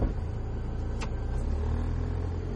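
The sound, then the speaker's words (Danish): A car drives homeward with a steady, fairly loud low rumble of engine and road noise that holds unbroken for the whole stretch, with no voices. “Nå, vi kører hjemad.”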